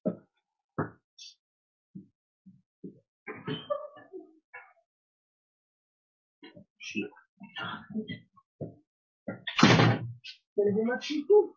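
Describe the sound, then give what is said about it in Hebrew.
A door being opened to let a visitor in: a few scattered clicks and thumps of handling, then a louder dense burst of rattling near the end, with short sounds continuing after it. “סליחה, היה פה מישהו מאוד חשוב שנכנס, אני חייב לפתוח לו”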